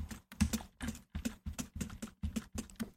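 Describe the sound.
Computer keyboard keys are pressed in a quick, uneven run of many crisp clicks while keyboard shortcuts are used to navigate a page. The clicks are faint, with short pauses between small clusters and no talking.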